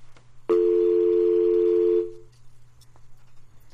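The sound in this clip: A telephone dial tone sounds after a call drops: one steady, buzzy tone holds evenly for about a second and a half, then cuts off into quiet line hiss.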